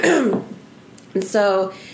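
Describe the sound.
Throat clearing from someone with a tickle in the throat: a short voiced rasp, a brief pause, then a second, louder and more tonal clearing sound.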